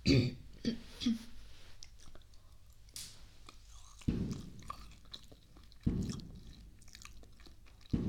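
Soft chewing and biting on freshly cut dragon fruit, sweet and moist, comes in several faint bursts of wet mouth sounds with quiet pauses between them.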